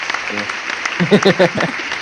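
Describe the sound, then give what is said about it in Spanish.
An applause sound effect, a steady hiss of many hands clapping at even loudness, with voices talking over its middle part. “Tenemos cortina para el aplauso.”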